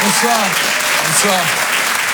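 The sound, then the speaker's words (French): Comedy club audience applauding a comedian: a loud, even wash of clapping while a voice speaks over it. “faites du bruit s'il vous plaît pour Guillaume, un maximum de bruit pour lui”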